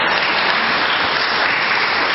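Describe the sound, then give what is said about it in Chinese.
A church audience applauds during a service, a continuous, dense patter of clapping that stays level throughout with no voices over it. “我哋咧为到佢哋向上帝俾一啲掌声吓，将荣耀归俾主，多谢你。”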